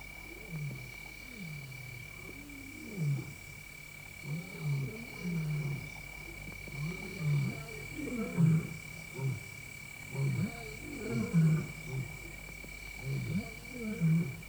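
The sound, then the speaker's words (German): Distant lions roar in a long series of deep, rhythmic grunting calls that swell and fade in repeated bursts. The roars are faint, with a steady high-pitched tone running underneath. “Das war noch weit weg. Schwer zu schätzen. Löwenstimmen tragen deutlich über eine Entfernung von 8 Kilometern. Aber sie hatten uns gehört.”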